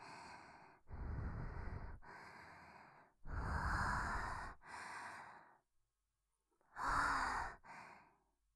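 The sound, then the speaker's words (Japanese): Deep breaths drawn in and let out, a series of several loud, airy breaths with short pauses and one longer silence before the last two, with no talking. “深呼吸です。”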